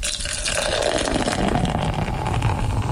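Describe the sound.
Beer poured from a tap, a continuous hissing, gushing stream of liquid that stays steady and fairly loud for a few seconds with no talk over it.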